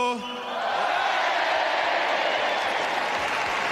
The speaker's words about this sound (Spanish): y se marchó entre risas y aplausos.